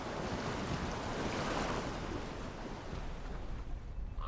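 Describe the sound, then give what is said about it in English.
Ocean waves rocking a boat: a continuous rushing wash of water with wind, steady and broad, with no distinct splashes standing out. “The undulating ocean rocks the boat.”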